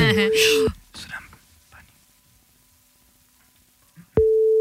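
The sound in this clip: A telephone ringing tone sounds on a call: two loud, steady, mid-pitched tone bursts. Faint voices and whispering fall in the gap between them, and the second burst runs to the end.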